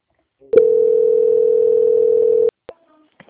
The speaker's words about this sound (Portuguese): peço que aguarde em linha que vou transferir o seu contato para o controle de qualidade